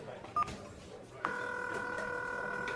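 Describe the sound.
Telephone dialing tones as a call is placed: a short electronic beep sounds first, then a steady, sustained tone begins and holds to the end.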